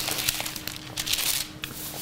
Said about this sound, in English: Let's get those pages turning.